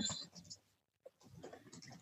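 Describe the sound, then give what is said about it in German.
A pen writes notes on paper with faint, soft scratching strokes, broken by a short pause before the scribbling resumes. “Ich schreibe nur gerade mit.”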